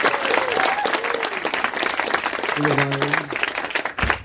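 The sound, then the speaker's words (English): Audience applause for the opening act at a comedy show: dense, steady clapping fills the whole stretch. A few sustained musical tones sit over it, and the clapping thins out briefly near the end. “how about a hand for Susan and Jonas over here opening the show?”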